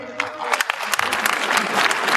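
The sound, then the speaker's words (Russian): Audience applause at a stand-up comedy show: dense, steady clapping from a crowd with a few sharper individual claps standing out, sustained evenly throughout. “Спасибо, друзья, спасибо, да. Согласитесь, такая информация не везде вызовет аплодисменты.”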